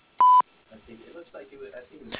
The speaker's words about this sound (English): At the beep, please leave a message.